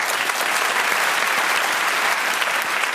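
A studio audience applauds to welcome the teams onto a panel show, a dense, steady wash of clapping that holds at an even level throughout with no voices over it.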